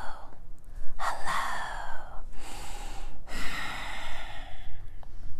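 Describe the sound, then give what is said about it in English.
Ocean-wave breathing in a beginner yoga class, a whispery rush of air drawn through the back of the throat. A few long breaths follow closely one after another, soft and airy, with no talking. “sort of like an ocean wave. If you can whisper, hello, you can create that sound. Try it now.”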